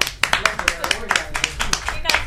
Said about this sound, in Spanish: Un fuerte aplauso.